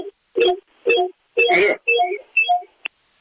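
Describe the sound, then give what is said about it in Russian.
A radio plays in a studio: five short, thin-sounding tonal bursts with brief gaps, then a single sharp click. “Так, братцы, выключаем радио.”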